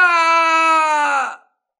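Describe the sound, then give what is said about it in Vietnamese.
A miserable, drawn-out scream of pain, one sustained wailing tone held at a steady pitch for over a second before it cuts off quickly. “Lại một tiếng kêu thảm thiết nữa vang lên.”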